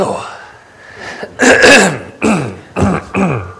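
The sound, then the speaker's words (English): Harsh throat-clearing coughs from someone with a lingering cough weeks after COVID: a few rough, raspy bursts, loud and irregularly spaced, following quieter breathy sounds at the start. “I've been having a little trouble shaking this ever since we had COVID a few weeks ago. This cough just hangs on.”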